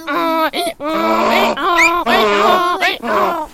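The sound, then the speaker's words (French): A person imitates a donkey's bray with their voice: several loud, strained, harmonic cries in a row, each swinging up and down in pitch like a hee-haw, with nothing else heard. “Moi, je sais faire l'âne, par contre. Vas-y.”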